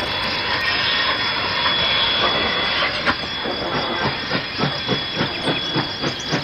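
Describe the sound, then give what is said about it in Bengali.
A large train passes on a railway line with a loud, steady roar and hiss, then a regular clatter of wheels on the rails beating out an even rhythm. “দূর থেকে গনগনে একটা শব্দ ভেসে এসে জানিয়ে দিচ্ছে train আসছে। কয়েক সেকেন্ডের অপেক্ষা, তারপরেই আমাদের মাঝের রেল লাইনটার উপর দিয়ে একটা ক্ষুধার্ত দানবের মতো চলে গেল মস্ত ট্রেনটা।”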